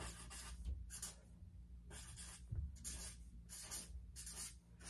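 Faint scratching of writing on a board, a series of short rhythmic strokes separated by brief pauses, heard alone.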